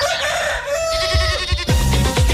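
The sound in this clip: Rooster crowing, a loud harmonic call with a long sustained note, joined by a few short low thumps and other fowl sounds.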